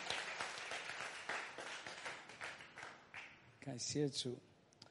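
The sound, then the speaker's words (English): A church audience applauds for Jesus during a service, a dense, steady wash of many hands clapping that gradually thins, with voices rising over it near the end. “我们再给耶稣一个热烈热烈的拍掌好不好？”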